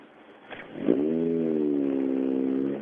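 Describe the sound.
A budget-build everyday car with original front suspension and stock shock absorbers drives off. Its engine swells up sharply, then settles into a steady, smooth mid-pitched drone that eases slightly at the end.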